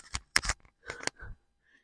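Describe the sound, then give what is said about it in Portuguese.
A falling microphone gives a few quick, sharp clattering knocks and thumps over about a second, then silence, with no voices. “O microfone caiu, mas tá tudo bem.”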